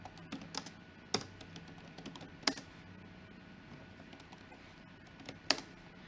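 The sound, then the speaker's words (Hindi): Computer keyboard typing as names are entered, a steady run of soft irregular key clicks broken by a few sharper, louder strikes, with no voices. “ठीक है, same मैंने यहाँ पे कुछ name type किए,”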